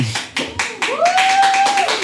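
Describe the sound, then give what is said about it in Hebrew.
Audience clapping on request for a commander at a live comedy show, sharp separate claps in a loose rhythm, with a voice sounding over them. “אתם יכולים למחוא לו כפיים בשבילי?”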